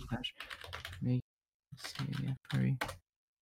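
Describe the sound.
Typing on a computer keyboard: a few bursts of quick, light key clicks under a person talking, with short pauses between.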